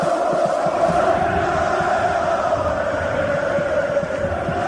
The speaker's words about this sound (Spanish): He flipado con las imágenes y el sonido. Mira, este es el sonido del estadio recibiendo a Marcelo.